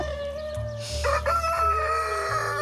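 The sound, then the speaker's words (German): A rooster crows loudly in a long, harmonically rich cock-a-doodle-doo over a low, steady droning hum, with no talk. “Das kann man nicht sagen, warum er jetzt kräht.”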